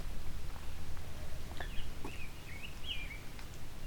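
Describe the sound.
Quiet song of a male grosbeak: soft, faint warbled whistles in a few short phrases over a steady low rumble.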